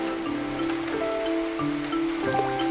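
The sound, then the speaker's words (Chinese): Rain falling in a steady, even hiss that stays loud and continuous through the whole clip, with no clear breaks or individual drops standing out. “这个雨越下越大了”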